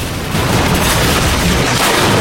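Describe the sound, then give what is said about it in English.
A truck fitted with a battering ram crashes through a wall into a security depot. A loud, dense roar of crashing and rumbling starts abruptly and holds steady throughout. “then drives forward into the wall, this time crashing through it into a security depot.”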